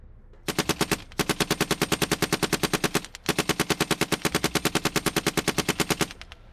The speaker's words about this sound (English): The remaining attackers opened fire, but Guruji